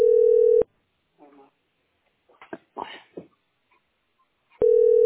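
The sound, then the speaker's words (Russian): A telephone call going unanswered, a steady mid-pitched line tone sounding at the start and again at the end, with faint, muffled voice-like sounds in the quiet gap between. “Не, не берут трубку, значит, не работают.”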